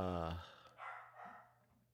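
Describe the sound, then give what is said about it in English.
A dog barks faintly in a few short bursts over a low background hum. “this dog is fucking killing me. This dog's fucking up my story.”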